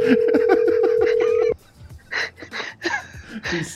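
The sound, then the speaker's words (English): A telephone tone after a disconnected call: a steady, mid-pitched hum holds evenly for about a second and a half beneath overlapping voices, then cuts off abruptly, leaving scattered talk. “I think the phone accidentally got disconnected there.”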